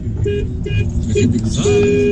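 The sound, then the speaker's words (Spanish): A taxi horn honks a few short toots and then one longer held blast, each steady in pitch, over a low rumble of car engine and traffic. “Y acá van unos bocinazos”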